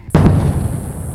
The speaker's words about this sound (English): That's the sound of a sonic boom created by a plane breaking the sound barrier.